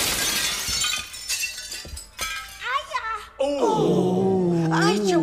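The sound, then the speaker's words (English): A stained glass window shatters in several sharp crashing bursts of breaking and tinkling glass, then voices speak loudly afterward. “Hey, watch out for the stained glass window there,”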